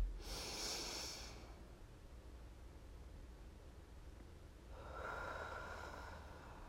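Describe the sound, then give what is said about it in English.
A deep breath in and a slow breath out during a guided relaxation exercise. Two soft, airy breath sounds are separated by a quiet pause: a short one first, then a longer, steady exhale, with no talking. “Try to tighten that as you take in a deep breath. And when you exhale, to release that muscle tension. Let's do it again.”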